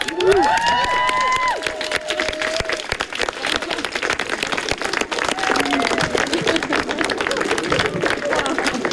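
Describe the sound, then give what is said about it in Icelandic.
Friends and family at a home gathering break into a lively round of applause that lasts several seconds. Voices and a cheer rise at the start, and murmuring continues under the clapping. “Og þá klöppum við bara.”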